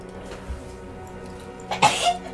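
A person sneezes once: a sharp, breathy burst near the end that follows a quieter stretch of steady low background hum.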